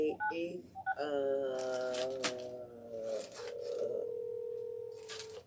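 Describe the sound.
Touch-tone telephone dialing while placing a call: a few rapid, short keypad beeps at the start, then longer sustained electronic tones that hold steady.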